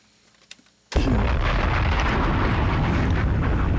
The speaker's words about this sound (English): Hit the bombs for me.